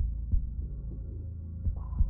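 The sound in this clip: Heart pounding in a heavy, irregular beat, a few dull low thumps rising over a steady low hum, with no voices.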